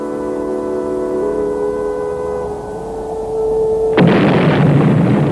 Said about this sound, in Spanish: La Tierra estalló en 1000 bolas de fuego atómico. La primera explosión fue obra de 5 terroristas.